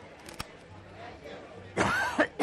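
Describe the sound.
Coughing from someone cooking crawfish sautéed in butter with onions: a harsh, throaty burst followed by two shorter coughs, loud against an otherwise quiet background.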